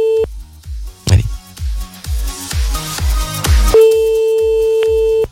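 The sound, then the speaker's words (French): A steady telephone ringback tone sounds during an outgoing call that goes unanswered, heard briefly at the start and again in a long stretch near the end, over a rhythmic music bed. “Ça ne décroche pas, c'est dommage.”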